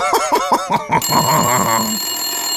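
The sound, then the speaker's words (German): A telephone rings: after a short stretch of other tonal sound, a steady, bright, high ringing tone starts about a second in and holds to the end, loud and with no talk over it. “das ist ein Anruf”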